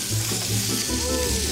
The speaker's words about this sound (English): Your pan is about to burst into flames.